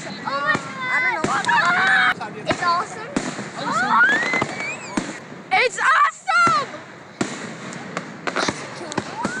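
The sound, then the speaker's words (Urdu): Fireworks over a lake at an Independence Day celebration, launched from a platform in the middle of the lake, crackle and bang in many sharp pops and bursts while people talk and exclaim throughout. “آتش بازی رات 9:15 شروع ہوئی، جس کے لیے خصوصی plate form جھیل کے درمیان بنایا گیا تھا۔”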